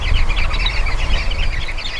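A flock of social birds chattering in dense, overlapping high chirps that carry on continuously over a low rumble, with no voices.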